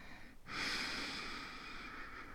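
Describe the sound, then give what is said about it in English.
A single deep breath drawn in by someone lying on their back during guided relaxation: a steady, airy hiss that begins about half a second in and holds to the end, alone with no talk. “Let's take a few deep breaths together. In.”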